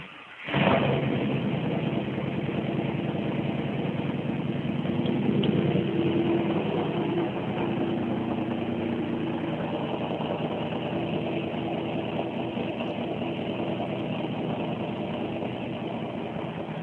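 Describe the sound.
A car engine fitted with a Fast 102 intake, swapped heads, a medium 224/228 cam, a new fuel pump and a fresh speed-density tune starts abruptly, then settles into a loud, steady, rumbling idle that carries on alone.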